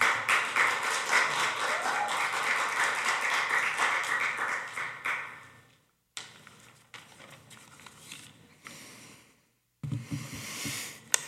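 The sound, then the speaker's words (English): Applause from an audience welcoming a pastor back at a gathering: dense, steady clapping for about five seconds that then fades out, followed by quieter scattered sounds and a short loud burst near the end. “Would you give him a big hand?”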